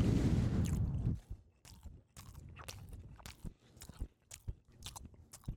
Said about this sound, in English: Eating pizza on camera. ASMR.